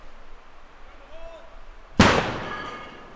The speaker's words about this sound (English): That was a trail crew blasting rock out of a trail in the Sitka National Historical Park this week.